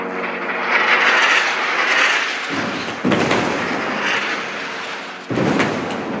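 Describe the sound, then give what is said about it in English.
Fighter jets and drones flying over Gaza during the war make a loud, continuous droning roar that swells and eases, broken twice by sudden jolts where the sound abruptly surges. “This is what it sounds like on day 366 of the war in Gaza today.”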